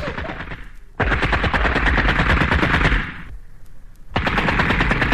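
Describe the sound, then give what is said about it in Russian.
Bursts of automatic fire from a captured German submachine gun in a 1971 wartime drama: loud, rapid rattling volleys separated by short pauses, with no voices. “Держи фрицевский, освоишь, мыслю я. Длинно не стреляй, коротко жарь, вверх задирает.”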